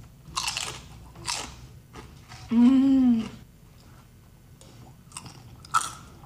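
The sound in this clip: Crisp crunchy bites into a fried cream cheese dragon, a few loud crunches spaced apart, with a sustained hummed voice sound of enjoyment in the middle.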